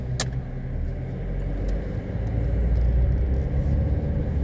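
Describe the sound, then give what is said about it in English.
A car being driven, its engine and road noise forming a steady low rumble that grows slightly louder through the second half. “I'm driving to pick up some medicine”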